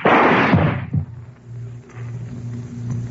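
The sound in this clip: Gunshots: a loud, booming blast is followed about a second later by a shorter, sharper crack, then a low, steady hum remains.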